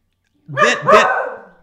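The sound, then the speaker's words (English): A schnauzer barks once, a loud, short double-pulsed yelp that rises into a second peak and then trails off. “yes, that's my dog. That is Harvey, the schnauzer, that is backing up my point, folks.”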